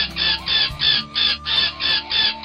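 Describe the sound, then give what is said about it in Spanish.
A bird calls from the trees in a rapid, evenly spaced string of repeated shrill, clucking notes. The calls are loud and regular throughout, with no voices heard. “lo notaron cuando escucharon que les hablaba desde los árboles. ¡Era él! ¡Ese pájaro era él! No había duda. Era su voz, que ahora solo decía...”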